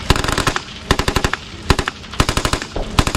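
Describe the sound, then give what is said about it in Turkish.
Loud gunfire at a military firepower exercise with sniper rifles, howitzers and tanks, heard as rapid clustered bursts of sharp cracking shots. The bursts repeat in quick succession with no voices. “Keskin nişancı tüfeklerinden obüslere, tanklardan insansız kara araçlarına kadar ateş gücünü sahaya yansıttı.”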